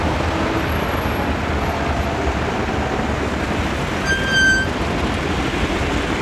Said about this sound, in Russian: Автомобиль едет по Фрунзенской набережной в сторону Лужников. Останавливается на светофоре.